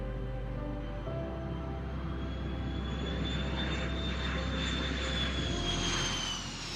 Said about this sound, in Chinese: 到了六点十二分的时候，一二三号班机终于从羽田机场开始滑行，准备飞向天空。